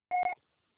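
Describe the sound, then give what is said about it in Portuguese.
A single short electronic beep from an answering machine signals the start of message recording: a clear, steady tone of about a quarter second with a tiny break in the middle. “Após o sinal. Grave seu recado.”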